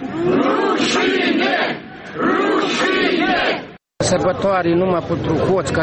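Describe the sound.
Crowd shouting at an anti-government protest in Moldova: loud massed voices chanting in rhythmic waves, broken by one short silence before the chanting resumes.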